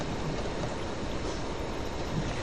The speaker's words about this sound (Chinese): 洗个手。